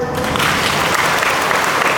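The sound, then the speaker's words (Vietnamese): Loud, dense applause from an audience at a religious sermon, with many hands clapping in a continuous, even roar that holds steady from start to finish. “To lên thưa anh chị em, vỗ tay to lên”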